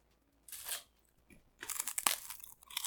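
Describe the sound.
Crunching of rice cakes being bitten and chewed: one short crackling crunch, a pause, then a longer run of dry, brittle crunches with no talk.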